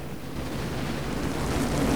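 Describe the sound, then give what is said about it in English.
An enormous wave crashes down towards the beach during a once-in-fifty-years storm, making a loud, steady, roaring rumble of surf that swells slightly toward the end, with no voices. “An enormous rip curl crashes down towards the beach.”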